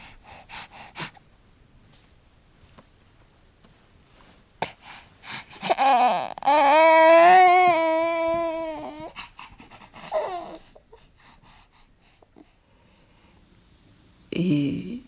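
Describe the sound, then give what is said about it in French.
A sleeping baby breathes softly, with faint snuffles and breaths. A longer, voiced, whimpering sigh rises in the middle, and a few quieter breathy sounds come near the end. “Alors là, c'est le son de mon bébé qui dort.”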